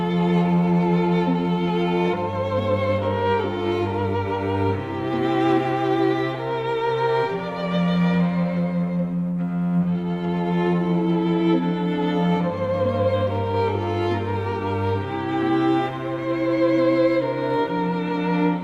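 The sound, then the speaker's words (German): A meditative Polish Christmas carol with a lullaby-like feel: a slow, gentle melody of long sustained tones that shift every few seconds over a steady low drone, at an even, moderate loudness throughout, with no words sung. “Ein Weihnachtslied aus Polen mit einer wunderschönen Melodie, sehr meditativ, das klingt so.”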